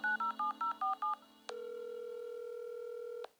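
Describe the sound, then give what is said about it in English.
Touch-tone telephone dialing: six quick, evenly spaced keypad beeps, then a single steady tone held for nearly two seconds. Clear and alone, with no voices. “I dialed her at once.”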